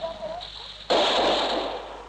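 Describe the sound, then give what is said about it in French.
Gunfire erupts from a street barricade against approaching German soldiers: after a brief voice, a sudden loud crackling burst sustains for over a second, and a second burst starts at the end. “La barricade vient d'ouvrir le feu.”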